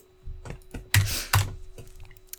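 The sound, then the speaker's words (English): Typing on a computer keyboard: a short burst of several light keystroke clicks, with two louder, sharper key presses in the middle, heard on its own without talk. “Oh, I typed in Zambia.”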